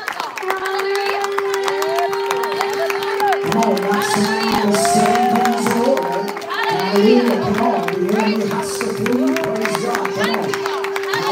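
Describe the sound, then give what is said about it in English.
Church audience clapping and shouting praise: continuous cheers, whoops and handclaps over a held keyboard note and backing music. “Put your hands together and give the Lord a shout of praise.”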